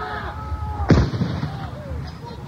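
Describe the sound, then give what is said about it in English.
Gunfire from two large 4-inch guns during an armed clash: one loud, heavy blast stands out over a steady, rumbling background noise. “You can hear some gunfire in the background. These two large 4-inch guns, indeed”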